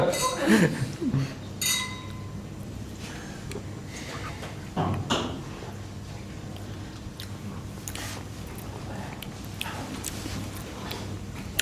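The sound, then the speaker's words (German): Wine glasses clink together in a toast at a wine tasting. Several bright, ringing taps sound, most of them bunched near the start and a few more spaced out later, over a quiet background. “Und es darf auch schön dingeln in 1,50 Meter Abstand.”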